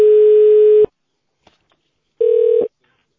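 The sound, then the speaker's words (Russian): Telephone line tones play while a call is connected to an operator: two steady, mid-pitched beeps, the first long and the second shorter, separated by near silence. “Соединяю с оператором.”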